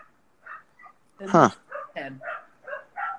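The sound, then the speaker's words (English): Dog barking in a quick series of short barks and yips, one noticeably louder and harsher near the middle, the rest lighter and evenly spaced, sounding alone without talk over them. “And we have a dog barking.”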